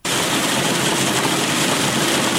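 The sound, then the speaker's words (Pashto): Pistachio cleaning machines in Kandahar, which clean harvested orchard pistachios, produce steady, unbroken mechanical noise at an even level from start to finish, with no voices. “په دې ماشینونو کې د کروندګرو لخوا د باغ څخه ټوله سوې پسته پاکیږي او بیا د وچېدو وروسته بازار ته وړاندې کیږي.”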